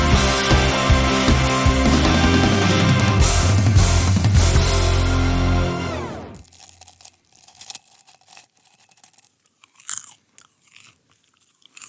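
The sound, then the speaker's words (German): Someone eating popcorn: loud music fades out at about six seconds, and scattered crunchy chewing bites follow, soft and irregular, over near silence. “Popcorn. Irgendwie so richtig lecker und ich habe noch ganz schön viel im Mund”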